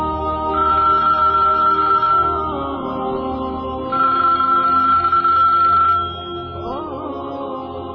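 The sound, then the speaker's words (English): A telephone rings while a call waits to connect, two long steady tones separated by a pause against a constant low background. “You lie down, and I'll bring you the phone to call Sadia.”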